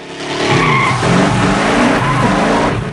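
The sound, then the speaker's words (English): A pickup truck roars across a gasoline-soaked petrol station forecourt, its tires squealing and skidding on the wet ground over a loud, sustained engine drone. “Jim struggles to get up, slipping on the gasoline as Ryder drives the pickup towards him.”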